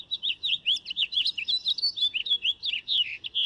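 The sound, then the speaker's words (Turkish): A nightingale sings a rapid, unbroken run of bright, high chirps and whistled notes in a steady, lively rhythm over a faint low background. “O ses bülbülün en tipik seslerinden biri. Buraya geldiğinizde bazen o sesi duymak için biraz beklemek gerekiyor. Onu duyduğunuzda gönül rahatlığıyla ha tamam bülbülmüş diyebilirsiniz.”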